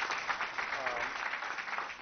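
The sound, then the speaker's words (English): Applause from an audience for a hip-hop dance drill team: a dense, steady patter of many hands clapping together, holding an even level for the whole brief stretch. “So let's give our dance drill hip-hop team a big round of applause.”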